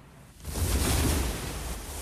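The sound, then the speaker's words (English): Waves crash against rocks in a broad, rushing roar that swells to a peak and then eases back to a steady wash, with no voices. “Waves crash against the rocks as Quinn and Robin struggle for the shore.”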